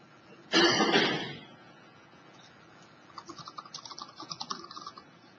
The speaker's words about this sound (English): So I will type in one more.